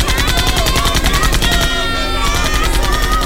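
Police gunfire at protesters gathered at oil wells crackles in loud, rapid, continuous bursts of shots that fill the whole span without pause.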